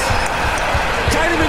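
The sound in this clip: A leather football bounces and is caught on a flat green pitch, giving a series of evenly spaced, dull low thumps under a steady wash of background noise.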